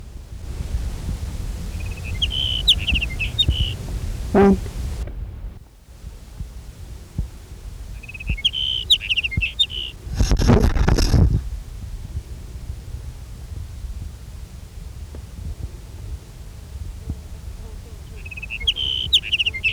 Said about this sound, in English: California. Here's sage sparrow number one.